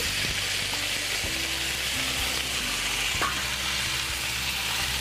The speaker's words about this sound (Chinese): 稍微爆香了以后，我们就可以把我们的猪放进来